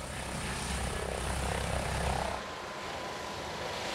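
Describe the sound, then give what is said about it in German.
ADAC rescue helicopter flying; it is based in Sande near Wilhelmshaven and flies rescue missions to the East Frisian islands. A continuous broad rotor and engine roar sounds throughout, and its low rumble eases slightly partway through. “Der ADAC-Hubschrauber Christopher 26 ist in Sande bei Wilhelmshaven stationiert. Er fliegt oft Rettungseinsätze auf den ostfriesischen Inseln.”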